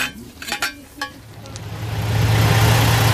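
Bus engine running during a short ride home: a low, steady engine drone that swells and grows louder through the second half, after a few brief higher-pitched sounds at the start.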